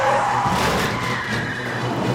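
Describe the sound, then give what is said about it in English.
A speeding semi-truck brakes hard and jackknifes as its tires skid, a continuous loud screech with wavering squealing tones over dense road rumble. “This semi-truck is speeding when it encounters a radar trap. The driver jams the brakes and the big rig jackknifes.”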